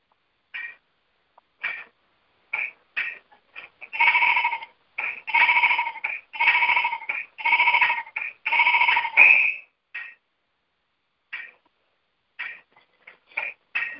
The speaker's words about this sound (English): the sheep always baas whenever you're shearing it for wool.